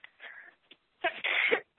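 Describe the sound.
A sneeze from a person fighting allergies: a softer first burst, then after a short pause a stronger, noisy blast of breath, heard alone without talk.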